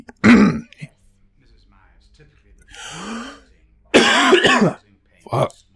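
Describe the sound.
Harsh coughing and throat clearing from someone with something caught in the throat. A few loud bursts come apart, separated by pauses, with a brief strained voiced sound between them.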